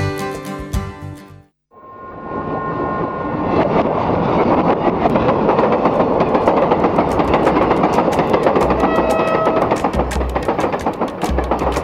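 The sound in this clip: Train sound effect in a jingle. Brief tonal music is followed by a short silence. Then a loud rushing rumble of rolling rail cars runs to the end, with rapid, rhythmic clickety-clack beats throughout.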